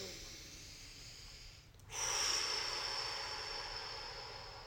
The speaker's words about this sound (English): So let's do our meditation. Take a deep breath.